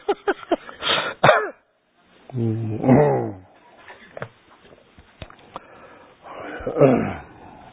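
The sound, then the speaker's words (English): People coughing and clearing their throats at an evening gathering, with a run of rough, irregular bursts of varying loudness, some harsh and throaty, separated by short quiet gaps. “Everybody's coughing.”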